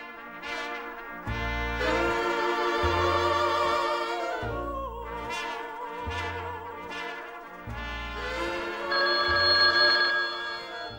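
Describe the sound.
A telephone rings with an incoming call in a radio studio, a loud, bright electronic ringtone repeating in steady bursts with short gaps, alone without talk.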